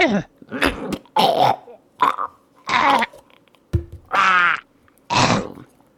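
Throat clearing and phlegmy coughing from a person: a rough run of short, raspy hacks and gravelly grunts, separated by brief pauses.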